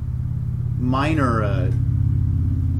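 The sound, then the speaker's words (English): A motorcycle passes on a road not far from a backyard. A steady low engine rumble runs throughout, and a brighter engine whine swells and bends in pitch around its pass midway before settling back into the drone. “we're not too far from the road. The motorcycle just went by. So I don't know if you pick up the road traffic or not”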